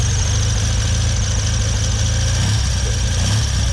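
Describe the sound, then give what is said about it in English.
A 1956 Triumph TRW 500 military motorcycle engine, still on its original engine, runs steadily with a loud, continuous low throb and an even mechanical rumble that holds throughout without revving. “500 Triumph, TRW, 16,000 were made for the armed forces. This one went to Canada in 1956 in a crate with a spare engine. It still got its original engine, and it came back to the UK”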